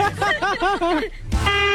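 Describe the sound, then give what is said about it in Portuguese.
A strange vehicle horn honks with a run of wavering, warbling tooted notes, then a brief pause and a harsher sustained blast, all loud and close together. “Nossa, mas que buzina é essa, cara? Que buzina estranha, cara.”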